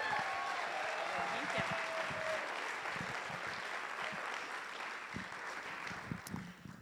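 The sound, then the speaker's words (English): An audience applauds to welcome a speaker before a talk, steady and dense clapping that holds evenly for several seconds, then thins slightly toward the end. “Please, a round of applause”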